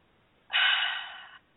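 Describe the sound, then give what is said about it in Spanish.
A deep breath, one smooth, airy rush lasting just under a second, steady at first and then tapering before it stops abruptly. “Déjame respirar profundo.”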